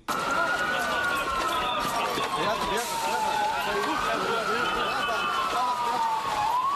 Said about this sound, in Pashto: دا د هغه امبولانسونو ژغونه دي چې د غازی انتاب په سیمه کې زخمیان روغتونونو ته انتقالوي